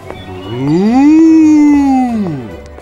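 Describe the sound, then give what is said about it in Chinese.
A bull moos once in a long, loud, tonal call. The pitch climbs at the start, holds steady, then slides down as it fades, with no voices. “走着走着 ，Billy 遇到公牛，公牛跟 Billy 说早安。”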